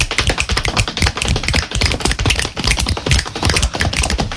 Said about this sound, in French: on va taper sur la peau des cuisses